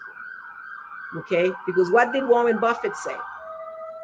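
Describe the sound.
An emergency vehicle siren on a New York street holds a steady, piercing wail while a man talks over it, his voice mixing with the continuous tone.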